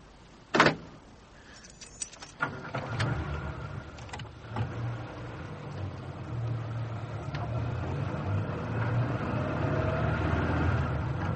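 A car pulls away: a sharp thud near the start, a few clicks, then a steady low engine rumble that builds gradually and runs to the end.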